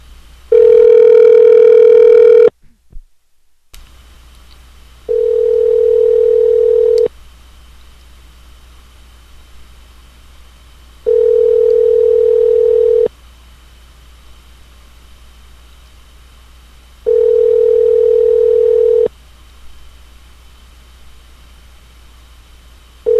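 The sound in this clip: Telephone ringback tones play while a call is placed again: steady, mid-pitched buzzing tones about two seconds long repeat every six seconds over a faint hum, after a harsher, richer tone at the start.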